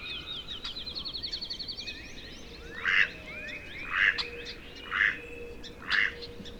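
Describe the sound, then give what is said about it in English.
A field sparrow sings once: a quick run of high, thin whistled notes that speeds up. Four loud, evenly spaced quacks from a nearby mallard follow. “I try to get closer to the mallard, and I hear a field sparrow sing in the background, just once.”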